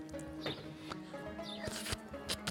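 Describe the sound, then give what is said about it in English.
Dice clatter as they are dropped and rolled on a table during a tabletop role-playing game, several sharp clicks scattered irregularly over a steady tonal background. “Roll all three. As a barbarian? Okay. Oh. You should be. I'll double check, though. Drop dice.”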